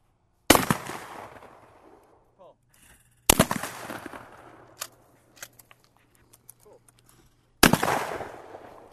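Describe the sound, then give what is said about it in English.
Shotgun shots ring out at a weekend skeet shoot: three loud, sharp blasts spaced several seconds apart. Each trails off in a long, fading tail, with faint clicks and small knocks in between. “I'm out at the Watertown Sportsman's Club's weekend skeet shoot.”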